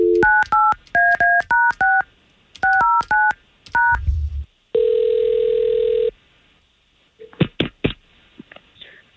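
A telephone dialed to call someone: two quick runs of touch-tone beeps, then a single longer steady tone, followed by a few sharp clicks.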